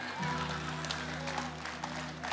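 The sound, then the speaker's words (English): Mississippi audience claps during a stand-up routine: a steady patter of many hands, moderately loud, over a faint constant hum, with some voices mixed in. “Only Mississippi would clap about this. In Ohio, they'd call the cops.”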